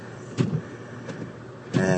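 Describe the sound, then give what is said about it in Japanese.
Muffled thumps and rustles as someone climbs into a car covered in about 8 cm of snow, with a few separate bursts and a longer one at the end. “今やっと車に乗り込みましたっていうのは、雪が積もってて、”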